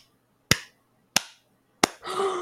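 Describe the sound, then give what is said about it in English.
Three sharp, isolated hand claps, evenly spaced with clear silence between them, before other sound takes over at the end. “We're clapping?”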